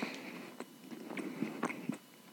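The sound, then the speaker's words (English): Biting and chewing into a donut heavily coated in sugar: a few soft, crisp crunches spaced irregularly over quiet mouth sounds, all fairly faint. “Oh, there's so much sugar on this donut. How do people eat these?”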